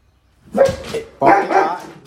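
A dog barks in a few short, loud, harsh bursts: one pair of barks, a brief pause, then a longer run of barking.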